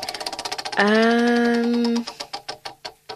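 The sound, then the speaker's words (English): A prize wheel spinning, with rapid, even ticks that give way to a long, steady held note. Once the note ends, the ticks return more widely spaced as the wheel slows. “Okay, I'm going to spin the wheel.”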